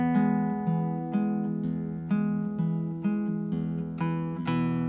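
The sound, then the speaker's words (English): Plucked strings are fingerpicked with thumb and index, pinching pairs of strings together and then repeating single notes. Ringing, sustained tones sound in a steady, even rhythm across the first three measures, played alone with no talk. “Then I'm going to pinch both the fifth and fourth strings together with the thumb and index. Hit the fourth again by itself with the index.”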